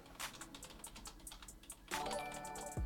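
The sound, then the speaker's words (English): Typing on a computer keyboard gives many rapid, uneven clicks that run steadily throughout and grow slightly louder in the second half, with no voices. “just type in trading patterns, right? don't even spell it correctly.”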